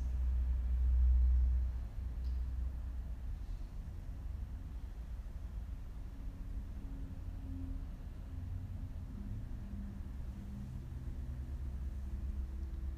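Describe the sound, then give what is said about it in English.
Distant traffic outside the room forms a faint, steady low rumble that holds evenly throughout, with no voices or distinct passing vehicles standing out. “Let your mind go out there, finding the traffic or the birds.”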